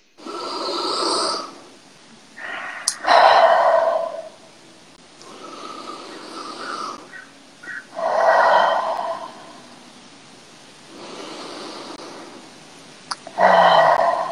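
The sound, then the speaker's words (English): Slow, deep human breathing from a guided breathing exercise: loud, airy exhales alternate with softer inhales, repeated several times in a steady, unhurried rhythm, with no talk. “let's take it with our three deep inhales and exhales, just to breathe in good, breathe out bad, take it in as deep as you can.”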